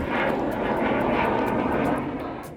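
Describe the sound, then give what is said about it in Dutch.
An F-35 fighter jet flies over near De Peel in Brabant, a loud, sustained roar of jet engine noise that holds steady and then begins to fade at the end. “Dat was het geluid van een F-35 straaljager. Die vloog over om mensen kennis te laten maken met dat geluid.”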